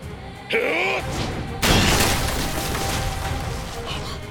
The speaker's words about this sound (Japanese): ただの一撃で甲板を叩き割るだと。